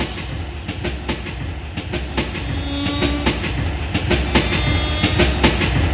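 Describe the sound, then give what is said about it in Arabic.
A train runs on its rails after leaving El Mahalla station for Cairo, with a steady low rumble and a regular clickety-clack of wheels that grows slightly louder, and no voices. “طلع على محطة المحلة وقطع تذكرة علشان يروح القاهرة، ركب القطر.”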